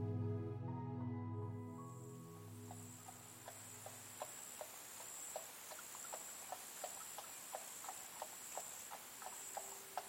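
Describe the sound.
Horse hooves clip-clop steadily as a carriage travels from Paris toward the palace of Versailles in 1786. Many even hoofbeats fall in a regular rhythm at moderate volume, and a held tonal chord fades out at the start.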